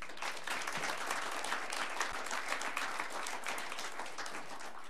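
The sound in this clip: Audience at a talk giving applause to welcome the speaker: continuous, even clapping from many hands, sustained at a moderate level for the full five seconds.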